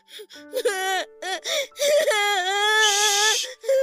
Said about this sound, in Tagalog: Huwag ka nang umiyak.